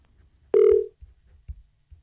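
A telephone tone sounds on a call-in phone line, a single clear mid-pitched beep lasting under half a second and followed by faint low murmurs.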